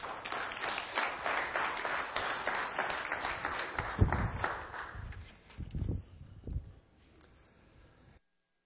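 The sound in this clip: An audience applauds to welcome a speaker to the stage at a church service, a dense steady clatter of clapping for about five seconds that then dies away into a few scattered softer sounds.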